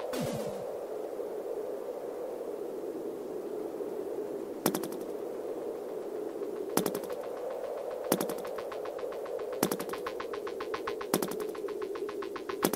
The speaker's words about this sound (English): What is going on with this firing?